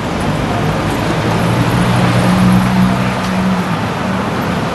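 Road traffic heard while walking toward Paddington in London, a loud, continuous roar of car engines and tyre noise with a low engine hum that swells as vehicles pass, then eases slightly.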